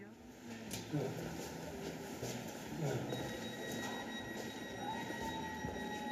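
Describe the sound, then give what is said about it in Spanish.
A moving S-Bahn commuter train: a continuous low rumble of rolling carriages with high, thin wheel-squeal tones, holding at an even level throughout. “Este tren solo llega hasta Tempelhof.”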